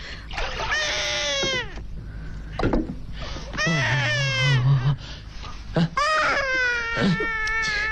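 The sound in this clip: A hungry baby cries in several long, high wailing bursts with short gasping pauses between them, the strained cries bending downward in pitch at the end of each breath.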